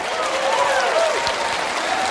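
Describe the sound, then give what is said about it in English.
Applause from an audience at a church sermon: a dense, steady patter of clapping that stays at an even loudness for a couple of seconds. “Can we give it an appropriate round of applause?”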